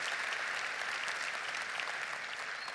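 A church audience applauding to welcome their church family, a steady, fairly quiet patter of many hands clapping without pause.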